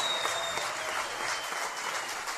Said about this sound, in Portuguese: Para os aplausos de vocês.